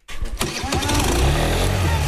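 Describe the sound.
Moped engine starting: after a brief silence, an ignition burst gives way to a loud, steady, rumbling engine idle that holds to the end.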